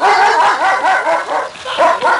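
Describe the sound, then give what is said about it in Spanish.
A dog barking on roof tiles: a rapid, loud series of high, yelping barks and yips in quick succession, with no talk over them. “Fue entonces que el perro comenzó a ladrar.”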